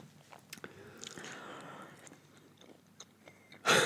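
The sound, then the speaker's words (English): Biting into and chewing a tomato: a soft, wet bite followed by quiet, mushy squelching and chewing sounds, ending with a brief louder crunch. “That is the worst sound ever. I think it's a tomato.”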